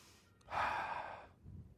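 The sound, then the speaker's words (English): One deep breath, a soft breathy rush lasting under a second, fairly quiet against a low background hush, with no talk over it. “Deep breath.”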